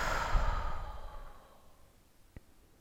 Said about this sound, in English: Take a deep breath right here.